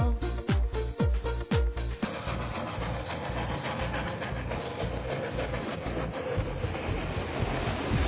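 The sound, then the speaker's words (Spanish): A train travels on rails with a steady rumble and a rhythmic clickety-clack. It opens with a few sharp, loud knocks, then the rolling noise continues without voices. “por el campo viajando, en el tren disfrutando”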